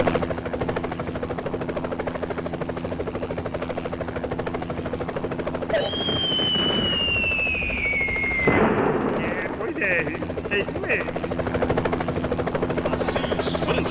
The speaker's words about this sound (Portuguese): E a aeronave tá pronta, né, piloto? Já tá tudo pronto, né?